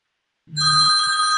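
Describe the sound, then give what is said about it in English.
A telephone rings for an incoming automatic dialer call, starting after a short silence and then sounding as a steady, bright electronic ringtone that holds to the end. “So we go and we start, and then it's calling me right now.”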